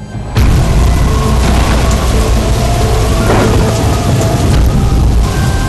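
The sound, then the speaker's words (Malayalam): Heavy rain pours down outside while wind blows, a dense, steady hiss and roar that holds at an even loudness throughout, with no voices. “നല്ല മഴ.”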